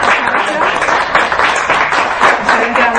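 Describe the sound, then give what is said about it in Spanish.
Audience applause after a talk, a dense, steady crackle of many hands clapping that holds at an even level for the whole stretch. “Bueno, vamos a dar un aplauso a estos chicos. Gracias por esta ponencia.”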